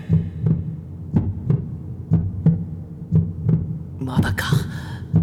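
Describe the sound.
Heartbeat sound effect of a pounding heart: low, muffled double thumps repeating in a steady rhythm over a soft hum, with no talk.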